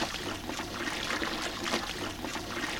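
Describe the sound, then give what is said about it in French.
Raw water runs out into a horse trough at an equestrian centre, a steady, continuous splashing trickle with no breaks. “parce que c'est de l'eau brute qui sort ici”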